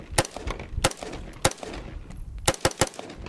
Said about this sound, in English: That was a regular AR-15. This is a ghost gun AR-15. Again, regular AR-15.